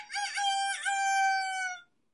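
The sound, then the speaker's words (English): A single rooster crow sound effect, loud and clear, with a bright multi-part call that holds its final note before cutting off abruptly into silence. “They do have Rooster. Rooster's pretty neat.”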